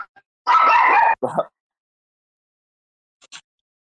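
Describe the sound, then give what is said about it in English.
A dog barks: one long, high, yapping bark, then a shorter lower one right after, followed by silence and a faint brief yip. “That was my dog.”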